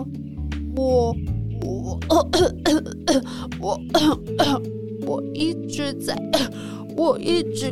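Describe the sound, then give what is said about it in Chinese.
Coughing and throat clearing acted out by a voice in a children's story, as a child describes a persistent cough at a doctor's visit: many short, rough bursts repeating in an uneven rhythm. “我一直咳嗽。 哦，原来是咳嗽啊。”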